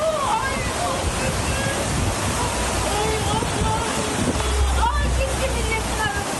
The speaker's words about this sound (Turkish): Dere patladı, sandalyeler gidiyor